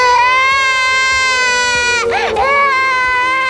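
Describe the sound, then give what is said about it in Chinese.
A baby cries in a continuous, high, harmonically rich wail that holds steady, with a brief wavering dip and rise in pitch midway before settling back into the sustained cry. “小姑娘，快别让她哭了。”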